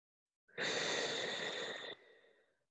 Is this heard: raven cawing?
no